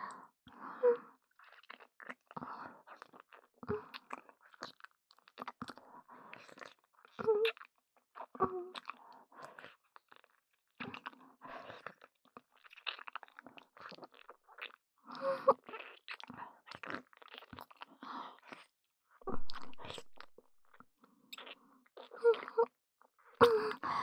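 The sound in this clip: Wet kissing and tongue smacking repeat in many irregular bursts, moist squishy clicks and sucking noises with soft breathy vocal sounds between them.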